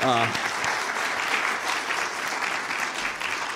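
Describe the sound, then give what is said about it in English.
An audience gives a round of applause, with dense, even clapping throughout. A voice is briefly heard at the start. “Give him a hand.”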